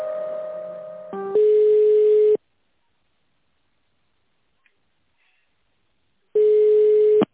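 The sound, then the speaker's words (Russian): Telephone tones while a call is transferred: a short mixed tone steps into a steady buzzing tone, then long silence before the same steady tone returns, with no voices. “Давайте я вас переключу, вам нужна Жукова Людмила Борисовна, секундочку.”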